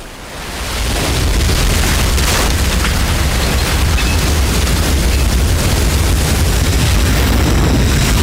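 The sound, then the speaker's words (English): A loud, deep explosion roar from an oil rig blast and a burning tower of oil in a film scene, swelling within the first second into a dense, sustained rumbling blaze that stays powerful throughout. “Black gold spewing hundreds of feet into the air, the tower of oil catches fire. A massive torch burning into the night.”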